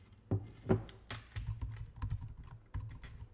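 Quiet typing on a computer keyboard: irregular bursts of soft key clicks with short pauses between clusters, and no talk.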